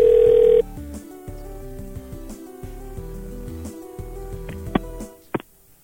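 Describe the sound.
A telephone call being placed opens with a short, steady tone that cuts off, followed by a low, humming line and a few brief, faint beeps near the end.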